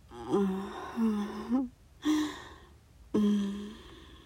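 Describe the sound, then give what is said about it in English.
Deep breaths in and out, voiced and audible like gasps and sighs, in three separate breaths with short pauses between them. Each carries a low, hoarse tone, and there is no speech. “Breathe in. And out.”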